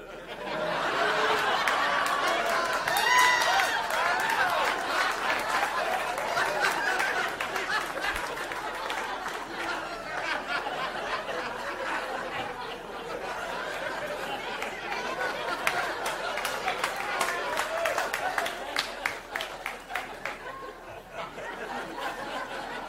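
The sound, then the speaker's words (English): An audience laughter sound effect plays throughout: a steady, dense crowd bed of overlapping laughs and chatter that holds at an even level for the whole stretch, with no single voice standing out. “You know what? This is where I'm going to put audience laughing sound.”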